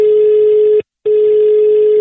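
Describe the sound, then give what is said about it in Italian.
Telephone tone while a call is dialed: one steady, single-pitch electronic tone that holds, breaks off for a short gap, then resumes at the same loud level. “Andiamo al telefono, via, e cominciamo.”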